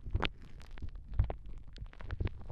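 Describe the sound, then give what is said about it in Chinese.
Soft, low heartbeat thumps: a few dull pulses roughly a second apart, with a quick pair near the end, among other faint muffled knocks. “你将会听到心跳声，这是你作为新生命诞生的心跳。”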